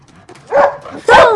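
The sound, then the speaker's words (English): A dog at home giving two short, whining yelps, the second louder and longer than the first. “You let the dog in”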